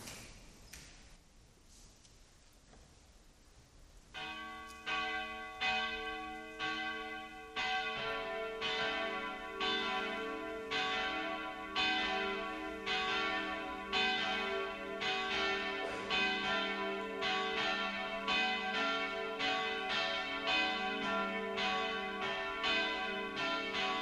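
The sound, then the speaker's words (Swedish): Church bells ring together for mass, beginning after a few quiet seconds and continuing in steady, overlapping strikes that build into a full, sustained peal. “Då får klockorna ringa samman till mässa.”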